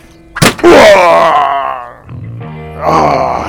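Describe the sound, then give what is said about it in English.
A gun thrown at a person's head lands with one sharp thwack, followed at once by a loud, drawn-out pained groan and later a second, shorter moan. “You threw your gun at my head.”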